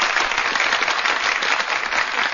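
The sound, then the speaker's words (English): Applause sound effect played from a button: a steady, dense wash of many hands clapping, loud and even from start to finish, with no voices. “Do I need to pull out the fancy applause button, or we're good? Do you have the fancy applause button handy?”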